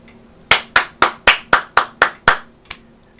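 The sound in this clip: Hand clapping: eight sharp, dry claps at a steady, even pace, followed after a short pause by a softer ninth clap, with no voices.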